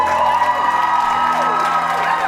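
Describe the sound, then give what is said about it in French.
Fans at a fan convention cheer and scream as the Saturday guests come onto the stage. The sound is a dense, continuous wall of high whoops and shrieks with no pauses. “convention digne de ce nom commence comme toujours par de nombreux cris de joie. Ceci accompagne la montée sur scène de nos guests présents sur l'événement le samedi.”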